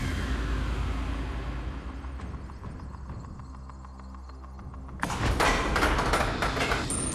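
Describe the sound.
A Tipping Point game-show counter drops from Drop Zone 1: a steady machine hum runs throughout, then a sudden loud clattering rattle bursts in about two-thirds of the way through and continues to the end.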